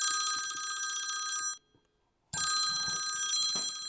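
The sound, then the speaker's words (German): A telephone ringing with a bright, metallic bell tone: two long ring bursts separated by a brief silence, the second cut off at the end. “Schon wenige Tage später kommt ein Anruf.”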